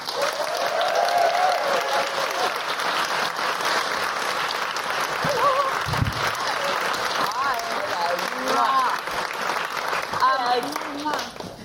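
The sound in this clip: Audience applause and cheering for a comedian coming on stage, a dense, sustained roar of clapping with voices calling out through it, staying strong throughout.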